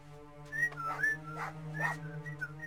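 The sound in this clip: A man whistles a few short, high chirps to call his small white dog with a black muzzle. The whistles are fairly faint and sit over a steady low drone.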